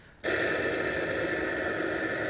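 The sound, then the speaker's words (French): A telephone bell rings out abruptly after a brief hush, a bright, steady, continuous trill that holds at constant loudness to the end, with no voices. “Vite, téléphonons maintenant au capitaine.”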